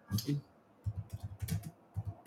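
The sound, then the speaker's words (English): Typing on a computer keyboard: quiet, quick key clicks in a few uneven bursts, with a voice briefly heard at the start. “I'll type it in here.”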